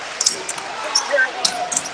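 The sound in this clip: A basketball is dribbled back and forth in the right corner during a high school game between Mountain Home and Dumas, with quick, irregular bounces under a commentator's voice.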